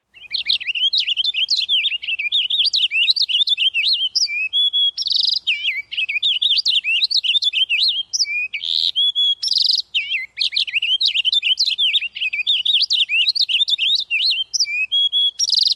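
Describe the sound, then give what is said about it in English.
A purple finch, a woodland and backyard bird, sings loud, rapid, high-pitched warbling phrases that repeat in long bouts separated by brief pauses, with no other sounds. “It is the purple finch, a common woodland and backyard bird of our area.”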